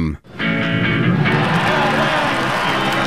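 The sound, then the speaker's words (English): A baseball crowd cheers as a player steals third base, a loud, steady roar of many voices that surges up after a brief quiet dip at the start and holds without pause. “That's the sound of Ellie De La Cruz stealing third.”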